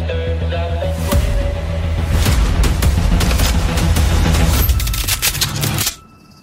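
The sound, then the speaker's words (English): Gunshots crack in a dense, rapid volley, many sharp loud reports overlapping into a continuous rattle for several seconds before the firing stops abruptly, with no voices. “Jesus Christ, does everybody have a gun?”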